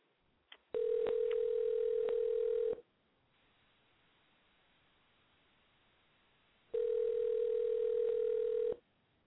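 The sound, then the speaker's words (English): Two steady telephone tones, each about two seconds long, sound on an outgoing call, separated by roughly four seconds of quiet line hiss. A few faint clicks come just before the first tone. “Okay, we're dialing now for John Pedworth.”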